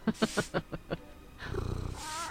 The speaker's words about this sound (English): What's this flea-ridden beast? It must be the hold cat.